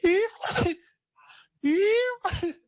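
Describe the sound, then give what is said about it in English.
A person imitates their partner's sneezing with two exaggerated vocal sneezes. Each begins with a voiced, drawn-out 'ah' and ends in a sharp, breathy burst, with a short quiet gap between them. “The thing that irritates me the most with my partner is her sneezing. She'll be like,”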